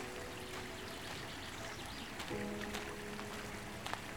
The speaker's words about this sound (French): Ah, on dirait même le bruit de l'eau qui coule.